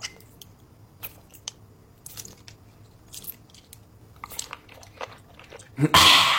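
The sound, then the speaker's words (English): Crunchy slime squeezed and played with by hand gives a string of crisp little crackles and squishes at irregular intervals, closing with a louder burst of crunching. “Crunchy slime. Sour slime.”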